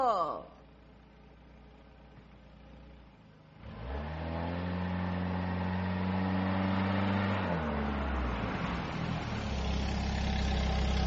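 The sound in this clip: A taxi's engine catches and settles into a steady, deep idling hum, then shifts into a louder, rougher revving roar near the end.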